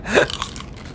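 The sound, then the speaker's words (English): Crunching of sea-salted coconut chips slow-cooked in coconut oil: one sharp crisp bite, then a few quieter chewing crunches that fade toward the end. “It tastes like coconut. They're coconut chips. Oh, you taste the salt at the end.”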